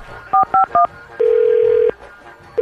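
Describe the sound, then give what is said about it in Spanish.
Telephone keypad tones during a prank phone call: three short, loud dual-tone beeps in quick succession, then one longer, steady single tone. The start of another tone comes at the very end. “márcale, márcale otra vez. Vamos a marcarle a la doña, güey.”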